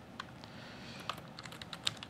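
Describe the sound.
Someone types a short ls terminal command on a computer keyboard. Quiet, crisp key clicks start out sparse and then quicken into a rapid patter toward the end.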